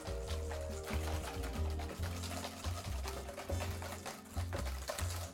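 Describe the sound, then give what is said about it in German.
Egg yolks and sugar are whisked together in a bowl, giving a quiet, steady run of repeated stirring strokes. “Jetzt können wir die Eigelb und Zucker mischen und schön rühren. Das heißt blanchieren. Die Eigelb blanchieren.”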